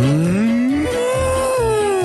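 A cow gives one long, loud moo that climbs in pitch, then holds steady and sags slightly at the end, with no other sounds.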